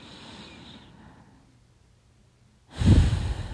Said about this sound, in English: And exhale. Let's do it again. A nice, big, deep breath in.